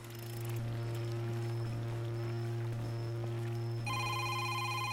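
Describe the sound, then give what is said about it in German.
Mobile phone ringing after falling into water: a muffled, steady ringing tone runs through bubbling, gurgling water the whole time, and a brighter, higher-pitched ringing pattern joins near the end. “Blubbern, Wasser. Was passiert, wenn das Handy ins Wasser fällt?”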